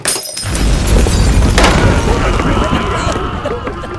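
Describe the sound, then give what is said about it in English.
A stove kicked over inside an inn, then the inn bursting into flames: a loud, dense crashing and rushing roar fills the whole clip, with a sharp burst near the middle. “My partner kicks over that stove and sets the entire inn on fire, allowing us to escape in the confusion.”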